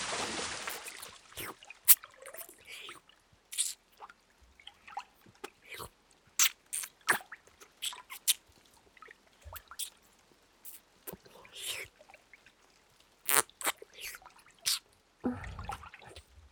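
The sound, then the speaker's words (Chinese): Wet mouth sounds of licking and nibbling an ear: many short, soft smacks, clicks and slurps come in irregular bursts, mostly quiet, with brief pauses between them. “姐姐好好尝尝你的耳朵是什么味道的。”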